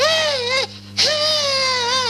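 A little girl cries in two long, high-pitched wails separated by a short catch of breath. The cry wavers slightly in pitch and stays loud and strained.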